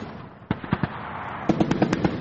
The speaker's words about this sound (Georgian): სროლის და აფეთქებების ხმა ესმით საოკუპაციო გამყოფ ხაზთან მდებარე ქართულ სოფლებში.